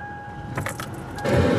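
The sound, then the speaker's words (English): Keys jangle briefly inside a car being driven home, then a low engine and road rumble swells and stays louder to the end. “And I am driving home and I'm shutting off all the stuff.”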